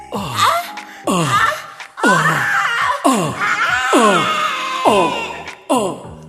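People screaming together in a series of loud vocal outbursts, each one falling in pitch and fading before the next begins. The wailing, groan-like cries follow one another at a steady rhythm.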